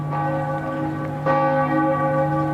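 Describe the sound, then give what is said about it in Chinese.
Amiens Cathedral's bell strikes noon with a couple of deep, resonant strokes. Long humming overtones ring on between and after the strokes, with no voices. “亚眠大教堂正午十二点的钟声敲响了”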